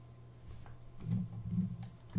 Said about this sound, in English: You gotta hug this microphone and type at the same time.